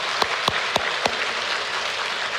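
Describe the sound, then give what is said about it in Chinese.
A church audience applauding to thank volunteer teachers: a dense, steady wash of clapping runs throughout, with four sharper, louder claps standing out in the first second. “请弟兄姐妹我一起鼓掌为他们感恩好吗？”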